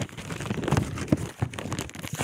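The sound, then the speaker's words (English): Sheet of paper being torn and handled, heard as a run of dry crinkling, rustling bursts with a few sharper crackles, moderately loud and with no one talking. “I don't want to rip your sheets up that you gave me earlier. Let me find one that doesn't matter.”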